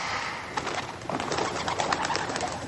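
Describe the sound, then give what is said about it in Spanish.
Pigeons flutter through a crypt with a collapsed roof. Many soft, overlapping wing beats mix with bird calls in a continuous busy stir. “Reinaldo da una palmada asustando a las palomas.”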